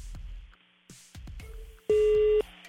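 Telephone signal tone on a phone said to have broken down: a few soft clicks, then a single steady, buzzy beep that holds for about half a second before cutting off.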